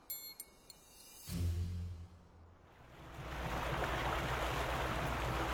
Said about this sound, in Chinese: 船又回到了那片海域，关停马达停稳之后